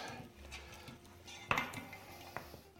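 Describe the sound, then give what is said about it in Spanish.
Potatoes are mixed and finished in a pan. A utensil scrapes faintly, and a couple of metallic clinks ring against the cookware over a low, steady background. “Bueno, ya voy a mezclar un poquito. Y ahora voy a rematar las patatas.”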